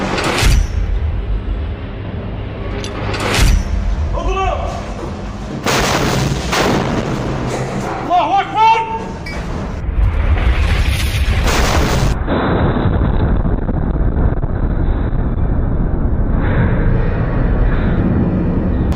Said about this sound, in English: Congratulations, you guys managed to fire an RPG and hit a tank.